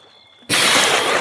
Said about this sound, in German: Dieser zog sich bis auf die Unterhose aus und ließ sich ins Wasser gleiten.